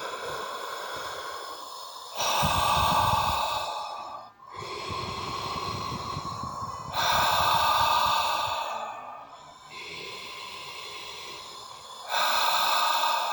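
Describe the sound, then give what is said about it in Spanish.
Slow, deep breathing in and out during a guided breathing exercise: several long, airy inhales and exhales alternate in a steady rhythm, soft and unhurried, with no talking. “Sube, inhala, exhala profunda. Que sea profunda. Sientes cómo estás jalando aire.”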